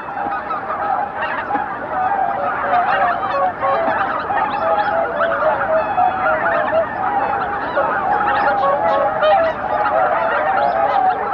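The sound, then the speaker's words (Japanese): Honking calls of a lone greater white-fronted goose calling for its flock: loud, continuous, high-pitched honks that run on without a break. “ママンでしょうか。一羽寂しそうに仲間を探しています。”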